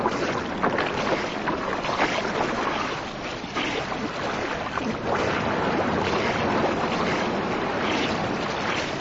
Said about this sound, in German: Wir müssen das kleine Stück schwimmen.